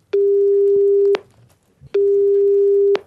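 Telephone ringback tone on an outgoing call: two steady, mid-pitched tones of about one second each, separated by a short pause, each beginning and ending with a small click, and no voices.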